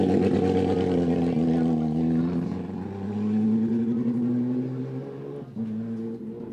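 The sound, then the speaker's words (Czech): Engine of a Porsche 997 GT3 rally car, a steady harmonic drone that rises gently in pitch and then drops, without voices. “To je Porsche 997 GT3.”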